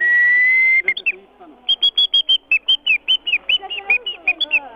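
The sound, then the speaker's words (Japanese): A bird-call whistle made from a tree nut imitates a Japanese bush warbler: one long, steady, high note, then a quick, even run of many short, sharp chirping notes. “この笛は小鳥を呼ぶことができるんですよね。 そうですね、これで呼ぶと小鳥が返事します。 じゃあちょっと吹いていただいてよろしいですか。 例えばウグイスですと、”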